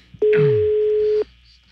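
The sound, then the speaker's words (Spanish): Ringback tone of a telephone on an outgoing call: one loud, steady beep at a fixed pitch lasting about a second, then quiet. “Vamos a marcarle a Cristina. Está sonando ya, ¿verdad? Está sonando el teléfono de Cristina.”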